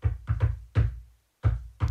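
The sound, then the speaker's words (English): Knuckles rap a door in the shave-and-a-haircut rhythm: five quick, dull knocks, a short pause, then two final knocks, heard alone. “Words that go along with that knock that you might hear at your door if somebody's trying to say it's a friend.”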